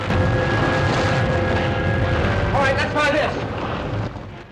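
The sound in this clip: A volcano erupting, with lava gushing through fractured rock, makes a steady, dense, low roaring rumble that holds throughout, brightened by a brief hissing surge midway before it eases slightly toward the end.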